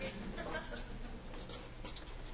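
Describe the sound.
Faint, steady scratching of a pen writing on an overhead projector, a low continuous rasp that keeps going without pause.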